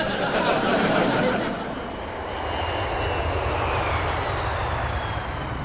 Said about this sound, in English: Captain Kreef here speaking. We should be landing in Gdansk in just under 20 minutes.